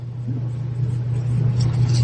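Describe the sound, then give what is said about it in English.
A jump-started car engine running, with a steady low rumble that grows slightly louder toward the end and no voices. “And turn it on. Okay. Fire it up. Good morning, Sarah. What is today's date? Who are you talking to? My car.”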